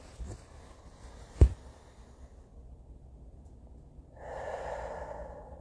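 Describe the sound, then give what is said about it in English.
A person taking a deep breath: a brief sharp snort-like burst early on, a quiet pause, then a long, airy inhale that carries to the end. “I'm going to take a breath.”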